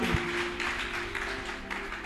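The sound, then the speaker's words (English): A church audience claps their hands together during a prayer service. The clapping is a steady, even patter with a sustained low tone held underneath it throughout. “Clap your two hands together for that.”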